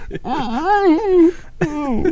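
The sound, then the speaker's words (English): A voice imitates a toddler trying not to cry, with a long, wavering, whimpering wail that rises and falls in pitch, a short pause, then a second strained whimper. “I would probably do that toddler cry where I'm trying not to cry.”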